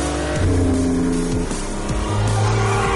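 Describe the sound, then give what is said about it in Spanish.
A car accelerates hard, skids and turns across the opposite lane. The engine roars loudly and shifts in pitch over squealing tyres. “acelera derrapando y gira a la derecha. Invade el carril contrario.”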